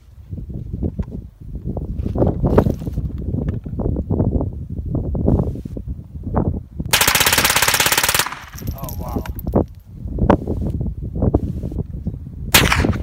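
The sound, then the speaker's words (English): Gunfire from guns being shot in Arizona: many sharp, loud reports in quick bursts, including rapid automatic-style strings and a dense, sustained volley partway through. “But anyway, I got to shoot a lot of guns this weekend. Arizona's a great state full of guns and freedom and America.”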